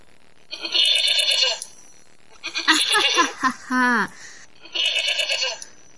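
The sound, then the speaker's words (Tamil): Sheep bleating in loud, wavering cries: one bleat, a jumble of overlapping calls with a rising tremulous note, then a final bleat, separated by short quiet gaps. “என்னை பார்த்து ஆடு என்று சொல்கிறீர்களே, நான் யார் என்று தெரியுமா? நான் தான் செம்மறி ஆடு.”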